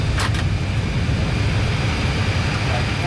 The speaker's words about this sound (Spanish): Freno puesto, compresión, APU available, paramos el motor 1, el 2.